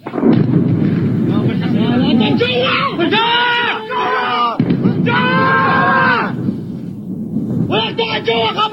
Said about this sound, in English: A video sent to media outlets, including ours, claims to show the attack on the base in Baghdad. Here is an excerpt of audio purportedly of the bombings.